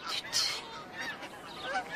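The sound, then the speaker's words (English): Snow goose honking, a few short nasal calls spaced across about two seconds, fairly faint and uneven. “It's the snow goose, dropping out of the eastern sky.”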